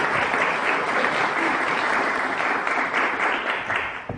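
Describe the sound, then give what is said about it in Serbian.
Sustained applause from an audience welcoming a guest speaker at a feast-day gathering of Mileševa monastery: dense, steady clapping that holds evenly throughout and eases slightly at the very end. “Molim vas da naše gosta pozdravim jednom aplauzom i pozdravim profesora Miloša Vesina.”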